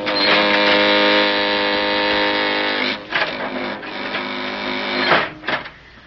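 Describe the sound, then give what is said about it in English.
An elevator car comes down a shaft with a loud, steady mechanical whirring drone. After about three seconds it turns into rougher, uneven grinding and rumbling with a couple of surges before it fades. “Hey, the elevator's coming down on us. We can't make it. We've got to make it.”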